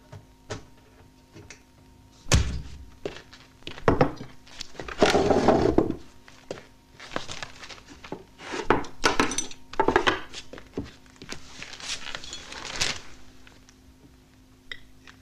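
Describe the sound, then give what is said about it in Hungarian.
A knife cutting cheese on a plate gives many sharp clinks and scrapes of metal against crockery, coming in irregular bursts of varying loudness with brief quiet gaps between them. “Mondtam már, hogy ne a tányéron vágd a sajtot.”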